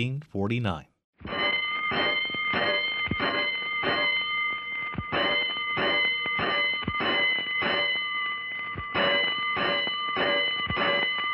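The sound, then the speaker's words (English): Fire alarm bells in a 1949 firefighting radio drama, sounding a five-alarm call: loud metallic strikes with a sustained ringing tone repeat quickly and evenly for about ten seconds after a short opening sound. “Five bells. Stand by all stations. Attention, all districts. A five-alarm fire. Five bells.”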